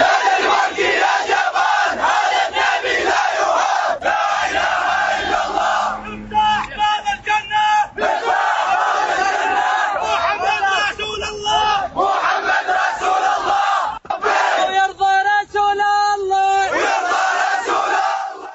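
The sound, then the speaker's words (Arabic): Crowd of protesters chanting slogans at a demonstration against cartoons of the Prophet Muhammad, many voices loud and continuous with rhythmic shouted phrases and a few brief pauses. “وقد رفع المتظاهرون هتافات وشعارات”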